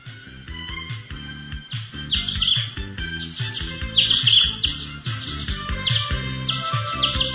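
Caged birds chirping as the cages are carried from a market out to open fields: many high, bright chirps and twitters repeat throughout over a low, steady droning background.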